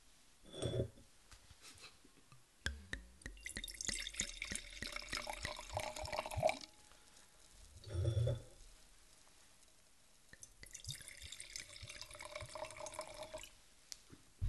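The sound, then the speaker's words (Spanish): Wine is poured into glasses in separate splashing, gurgling stretches with faint drips between them, with a soft thump partway through. “Bueno, abierto el vino y servir las copas”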